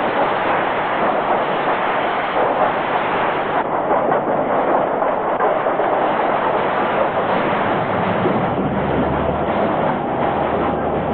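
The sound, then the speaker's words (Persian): Railway locomotive and train cars passing on the tracks, a loud continuous rumbling roar with rattling wheel clatter that holds steady for the whole stretch, the low rumble thickening toward the end. “نوبت لوکوموتیو، زود باشیم پیادشیم.”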